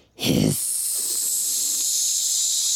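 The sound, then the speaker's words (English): A human voice imitates a snake's hiss: a brief voiced onset gives way to a long, loud, steady sibilant hiss held unbroken to the end. “"Hiss!" In a flash, he turned into a snake.”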